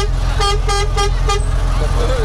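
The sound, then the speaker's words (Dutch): A vehicle horn toots four short, evenly spaced times in traffic at a red light, bright tonal blasts over a constant low engine drone. “Toeter, hoor. Iedereen kijkt hier. Ze horen de toeter. Ze horen jullie toeter.”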